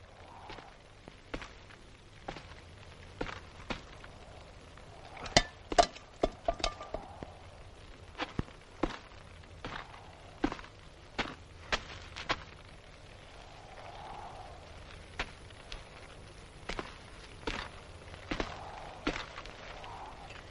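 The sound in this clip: Footsteps of a man walking back and forth inside a house, heard as faint, irregular taps with short bursts of quicker steps. Quiet stretches separate them, and no voices are present.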